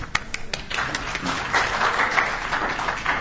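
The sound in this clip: Audience applause welcoming a presenter to a session on Adobe Captivate: steady, sustained clapping from many hands, fairly loud, with no voices.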